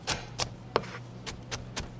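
A knife dices apple on a cutting board, with several faint, sharp chops at an unhurried, slightly irregular pace.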